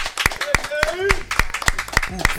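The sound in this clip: Sharp, rhythmic hand claps greet a guest, with many evenly spaced claps ringing out while a voice talks over them.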